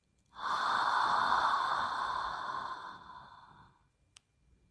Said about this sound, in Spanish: Respira. Retené. Exhala.